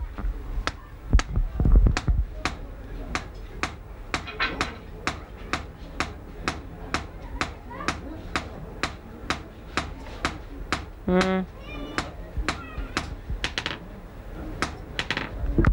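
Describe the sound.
A hammer taps a tool to engrave a pattern into copper: many sharp, bright metallic strikes in a steady, even rhythm, about two per second, with brief voices heard between them.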